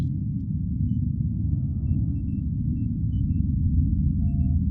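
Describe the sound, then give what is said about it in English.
Spacecraft launch rumble: a deep, steady low roar that holds at an even loudness throughout, with no breaks or clear peaks. “commence launch. Launch in 3, 2, 1.”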